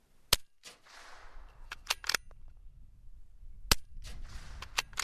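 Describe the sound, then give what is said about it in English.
A rifle fired after its scope sight has been adjusted: several sharp, short cracks and clicks scattered over a quiet background, some close together and others spaced apart. “I shoot again with the adjusted sight.”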